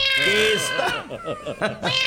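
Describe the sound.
A cat meows a few times with high, drawn-out cries that waver in pitch, each one rich and nasal and running close after the last.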